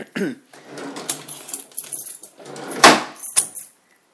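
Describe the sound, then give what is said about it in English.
A set of keys jangles as it is handled, giving a few bright metallic clinks and rattles in uneven bursts, fairly loud, with short pauses between them. “one set of keys.”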